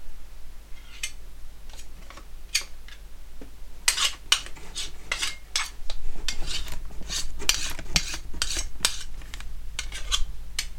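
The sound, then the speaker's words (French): Utensils clink and scrape against a bowl as coconut butter and shea butter are scooped out and weighed for a recipe, a steady run of many quick metallic taps and rubs, getting busier toward the end, with no speech. “donc là j'ai pesé mon beurre de coco, mon beurre de karité”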